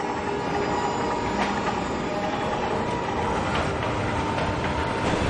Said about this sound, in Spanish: Observa una vía de tren. Está en el andén de una estación. Un tren se aproxima.